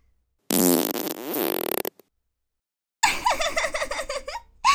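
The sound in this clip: A long, loud, buzzing fart sound trails into rapid sputtering pulses before stopping, followed after a short silence by a stretch of giggling.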